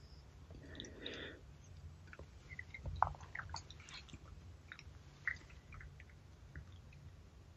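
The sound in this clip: Soft chewing of pork pie with chunky meat and jelly, eaten with piccalilli; faint, wet mastication with a few small clicks and squishes, no talk.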